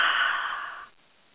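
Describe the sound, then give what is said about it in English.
A slow exhale released during meditation: one soft, breathy rush that holds steady, then tapers and fades into silence within a second. “Take a breath. Hold that breath. Release that breath.”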